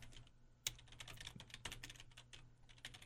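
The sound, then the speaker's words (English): Rapid typing on a computer keyboard during a no-backspace typing challenge: a dense, irregular stream of many clicky keystrokes, with a few sharper strikes standing out over a steady low hum. “Keep typing. Keep going, dude. Come on.”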